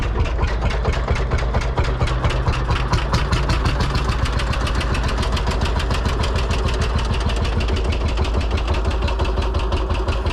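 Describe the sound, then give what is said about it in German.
A Lanz Bulldog single-cylinder tractor engine chugging: a loud, steady run of rapid, evenly spaced thumps that holds one rhythm throughout, with no voices. “Ich glaube, das ist ein Lanz Bulldog. Das ist ein Einzylinder, deswegen dieses tuckernde Geräusch.”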